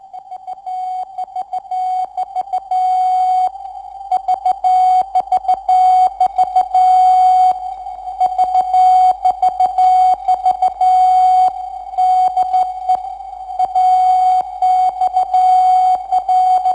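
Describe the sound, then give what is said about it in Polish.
Morse code keyed on a single steady, mid-pitched tone, spelling the call sign AXL of a transatlantic radiotelegraph station near Warsaw. Clear, fairly loud dots and dashes repeat in crisp on-off bursts with nothing else heard. “To AXL w alfabecie Morsa. Sygnał wywoławczy Transatlantyckiej Centrali Radiotelegraficznej w Babicach koło Warszawy.”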